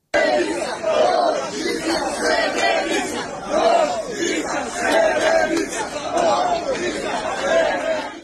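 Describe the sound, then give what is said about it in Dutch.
A street crowd in Serbia chants together, many voices repeating a short rhythmic phrase again and again at a loud, even level for the whole stretch. “Waar te horen is dat mensen scanderen op de straten in Servië.”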